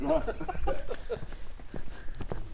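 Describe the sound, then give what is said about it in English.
Footsteps walk along a backyard, a run of soft, irregular crunching steps with a voice faintly present near the start. “Okay, so now we're walking along the backyard.”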